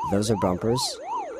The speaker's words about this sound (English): That, the siren is just the background noise.